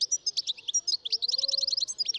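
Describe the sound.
Male goldfinch singing in trees during nest-building season: high, rapid twittering chirps in a continuous run, with the notes packing closer and faster in the second half, heard alone.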